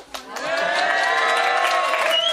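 A festival crowd in a town hall square cheers a greeting, a loud, sustained collective shout that rises quickly and holds steady to the end.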